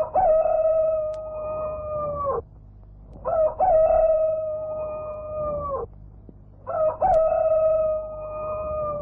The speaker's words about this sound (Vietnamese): cô bỗng nghe tiếng gà gáy ở bên sông.